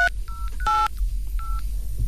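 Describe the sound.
Touch-tone phone number being dialed: three short electronic beeps of two blended pitches, plus one longer, harsher tone, played over a low steady hum, and no one speaks.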